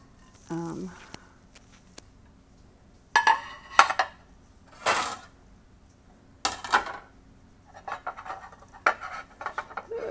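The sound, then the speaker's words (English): Plates and glass bowls clatter as they are handled and stacked, in a few sharp bursts of clinking and scraping separated by quieter stretches. “I'm trying to organize my plates here.”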